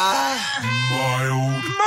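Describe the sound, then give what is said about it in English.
A mild groan sound effect: one drawn-out voiced groan of about two seconds. It is low and wavering, dips in pitch early, holds steady, then lifts briefly at the very end. “You get that mild groan in there.”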